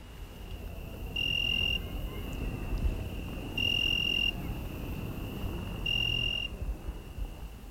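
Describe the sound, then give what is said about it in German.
Crickets chirp through an open garden window on a hot evening in Meolo, Italy. A steady high trill runs throughout, with three louder bursts of rapid chirping at even spacing over a low rumble. “Das Fenster, nach dem Garten zu, ist offen. Man hört die Grillen.”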